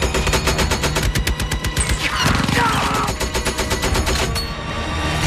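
Rapid machine-gun fire in a combat firefight rattles without a break for about five seconds, a loud, dense and evenly spaced stream of shots.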